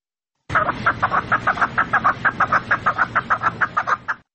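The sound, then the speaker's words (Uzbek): Partridges kept by Uzbek keepers in northern Afghanistan for singing and fighting give a loud, rapid run of many clucking calls. The calls come in a steady, even rhythm, with no voices. “Afg'onistonlik o'zbek kaklikbozlar asosan kakliklarni sayratish va yo'ham urushtirish uchun asraydilar.”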